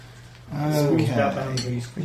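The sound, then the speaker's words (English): Spoons clinking as they are handed out, with a few light metallic clinks scattered beneath a person talking. “Look, have a spoon. I've got one. Got a spoon.”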